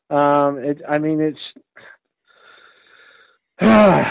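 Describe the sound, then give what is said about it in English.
Heavy, wheezy breathing from a man who is out of breath. Loud, strained, voiced breaths come in a quick run, then a faint, breathy pause, then one more loud, harsh gasp. “I'm out of breath.”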